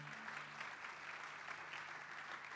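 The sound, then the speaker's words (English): Faint, even applause from a church audience welcoming a guest speaker to the front during a morning service, a soft continuous patter with a low hum beneath it. “So welcome you this morning, and let's just give him a hand as he comes up.”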